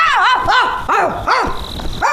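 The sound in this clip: A person imitates a dog barking, voicing a quick run of several loud, yelping barks that each arch up and fall in pitch.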